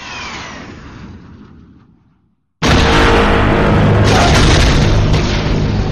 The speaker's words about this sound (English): The seismic charges are a cool thing, like I would those. Say. Mm-hmm. They were, like, good Ben Burtt sound design there.